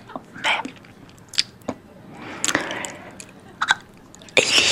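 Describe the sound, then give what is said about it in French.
Wet mouth noises, with chewing, smacking and saliva clicks: scattered sharp crackles and squelches, some louder bursts at irregular intervals. “Il y a des gens qui aiment beaucoup les bruits de bouche.”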